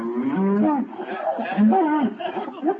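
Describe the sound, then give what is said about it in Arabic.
Cow mooing in a played film: a few drawn-out, low, wavering moos with strong harmonics that run almost continuously, at moderate loudness. “عايزكم تركزوا قوي قوي في البقرة دي، هم تفاجئوا بيها.”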